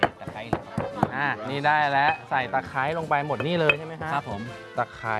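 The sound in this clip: A pestle thuds in a mortar as galangal, turmeric and lemongrass are pounded into paste for Thai sausage, with a few sharp knocks scattered under steady conversation.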